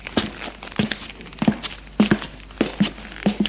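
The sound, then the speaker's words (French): Footsteps of a man walking: a steady series of dull, thudding steps of moderate loudness, fairly evenly spaced, with no talking. “Je vais me lever. Faut que je marche un peu. Il se lève et marche.”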